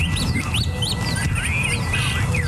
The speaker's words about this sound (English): Jim Krasula reports there are fewer birds flying around our country. There's less of this across the country, especially the American Southwest.